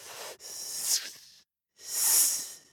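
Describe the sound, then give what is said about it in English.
A snake hissing, three breathy, airy hisses separated by short silences, the first brief and the later two longer and stronger. “The snake looked up at the holy man, and the snake hissed back,”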